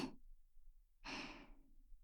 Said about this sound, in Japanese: ママの甘い息ふうふうされるの好き？